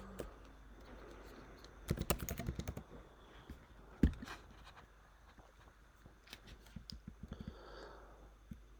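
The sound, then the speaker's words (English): Keystrokes on a computer keyboard during a web search: a quick, faint run of clicking taps, then one sharper knock, followed by a few scattered light taps. “Go back up and just type in retro pug.”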